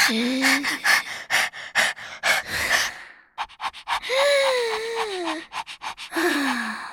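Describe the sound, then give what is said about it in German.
A voice imitates a napping man breathing through his mouth because his nose is blocked. It makes many loud, rhythmic rasping breaths and gasps, some voiced with a wavering pitch. “Das ist mein Papa, wenn er Mittagsschlaf macht. Stimmt. Dann atmet er beim Schlafen wahrscheinlich durch den Mund”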